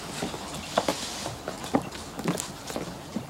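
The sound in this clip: Footsteps climbing stairs, someone carrying a heavy sack up unfinished steps: a steady series of soft, fairly faint thuds falling about every half second.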